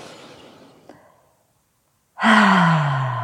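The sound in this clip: Deep breathing in and out: a soft, airy breath fades into silence, then a loud, partly voiced breath follows with a falling tone.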